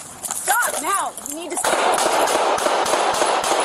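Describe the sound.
Gunfire from a police officer shooting at a man holding a knife, in replayed footage. A shouting voice comes first, then a rapid run of many sharp, loud shots packed closely together.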